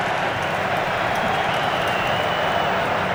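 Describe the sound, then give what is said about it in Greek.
A football stadium crowd roars as Ecuador prepares a corner kick against Germany, a dense, loud, unbroken wash of cheering and noise that holds steady throughout. “Ξεσηκώνεται το κοινό.”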